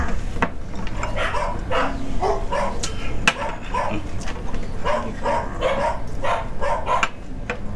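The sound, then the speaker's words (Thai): A neighbour's dog barks and yelps over and over in a long string of sharp, mid-pitched cries. A constant low background hum sits underneath. “เสียงเหมือนหมามันร้องไหมนะคะ อ๋อหมาคนข้างบ้านน่ะ”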